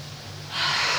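A person breathing during a guided stretching exercise. A breathy rush of air swells louder halfway through and then holds steady over a low hum.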